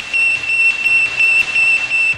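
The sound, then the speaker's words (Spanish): Beeping radio signal from the first artificial satellite, a 50 cm Soviet metal sphere with four antennas launched in 1957: a high, thin electronic tone pulsing in a steady repeating rhythm of short beeps, loud and alone. “El Sputnik era una esfera metálica de 50 centímetros de diámetro y cuatro antenas que emitían un bip cada pocos segundos.”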